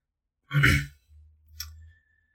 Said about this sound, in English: clears her throat.